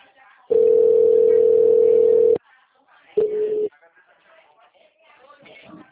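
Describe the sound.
A telephone tone sounds after a call drops: a steady mid-pitched tone of about two seconds, then a shorter one after a pause, with faint talk at the start and end.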